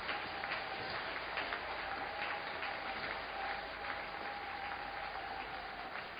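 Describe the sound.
A church audience applauds in steady, continuous clapping that holds an even loudness throughout, with no voices rising above it.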